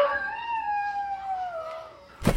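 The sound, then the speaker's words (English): A dog sound effect triggered by pressing a button: a long, whining howl with clear harmonics that slowly slides down in pitch, followed by a short, loud, noisy burst at the end. “That's the button that pushes a dog out of a window.”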